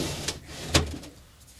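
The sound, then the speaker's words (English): A drawer full of items is pushed shut, making two short knocks, the second sharper and louder, amid faint sliding and rattling that fades into quiet. “This is the sound of the drawer. And I'm pushing everything into the drawer.”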